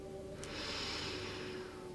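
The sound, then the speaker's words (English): A slow, deep inhale during a guided breathing exercise in prayer position, heard as a soft, breathy hiss that swells after a brief moment and holds steady for over a second above a low constant hum. “Take a moment for reflection. Maybe an affirmation or solidify conversations in your memory. And take a deep breath in.”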